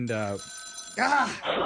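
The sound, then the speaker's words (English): A rotary telephone rings with a sustained metallic bell tone under people talking, whose voices come before and after the ring. “This is unreal. It is unreal. My grandma's rotary phone is ringing.”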